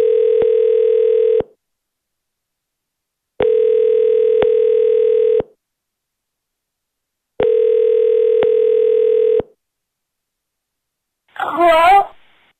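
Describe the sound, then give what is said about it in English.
A Mitel voicemail system on a school phone line sounds three identical long, steady tones, each about two seconds long and separated by silent gaps. A short burst of voice follows at the end. “Please leave a message at the tone.”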